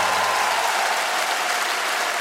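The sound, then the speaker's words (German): Audience applause for a lawyer forms a thick, even wash of clapping. It holds at constant loudness from start to finish, with no voices on top. “An der Stelle einen großen Applaus an meine Rechtsanwältin Julia Betzenberger.”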